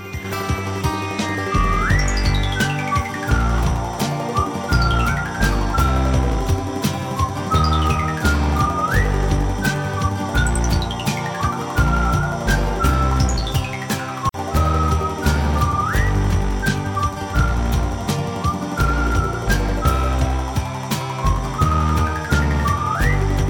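A whistled melody with bright, swooping pitch glides that recur throughout, set over a steady instrumental backing with sharp percussive accents. It stays loud and continuous for the whole clip.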